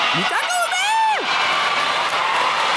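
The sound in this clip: Schoolchildren cheer wildly in a sumo arena during semifinal bouts. A few high whooping voices swoop up and down over a steady crowd roar, which then settles into a continuous, noisy din.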